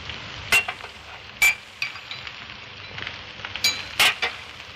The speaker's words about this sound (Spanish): Las vierte en una copa de cristal con agua y remueve el contenido.